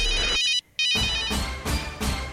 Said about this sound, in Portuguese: que parece que esse telefone esqueceu de tocar mais cedo aqui hoje